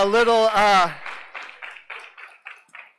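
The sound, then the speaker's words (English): A short burst of voice gives way to a few scattered handclaps from a church audience after a prayer for a new church plant. The claps are sharp and separate, spaced unevenly, and fade gradually. “Yeah, you can clap for them.”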